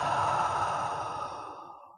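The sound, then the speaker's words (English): A deep, slow breath out through the mouth, part of a guided relaxation exercise, comes as a long, airy exhale that starts full and gradually fades away over about two seconds. “Take a deep, slow breath in through your nose and out through your mouth.”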